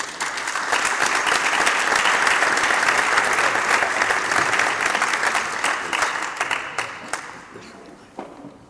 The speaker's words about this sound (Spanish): Y creo que se merecen un fuerte aplauso.